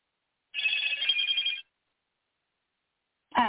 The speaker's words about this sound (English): Did you get a text or something? Is that what that sound is? Yeah, sorry. I'll go turn that phone off.